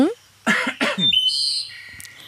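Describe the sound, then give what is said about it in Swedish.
A person clears their throat in two short, rough bursts in quick succession, then a few thin, high chirping tones follow. “får jag harkla mig?”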